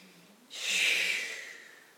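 A single deep inhalation during a guided meditation, a soft hissing breath that begins abruptly, swells, then gradually tapers away, quiet and heard alone.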